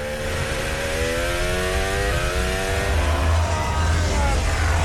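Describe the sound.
A Formula 1 car's engine screams as it deploys boost during qualifying at the 2026 British Grand Prix, a steady high-pitched whine whose harmonic tone climbs, dips briefly and rises again over constant background noise.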